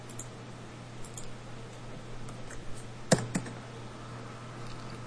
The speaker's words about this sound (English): the gas station number is the one I'm about to type in.